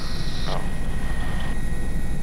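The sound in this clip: Steady engine drone of a kerosene-fuelled aircraft in flight: a continuous low rumble under a broad wash of noise, with a faint high tone running throughout.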